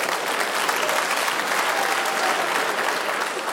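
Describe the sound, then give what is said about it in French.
Audience applause in a live venue: dense, steady clapping that fills the whole clip at an even loudness, with no single voice standing out. “Non, Non, applaudissez pas ça, non.”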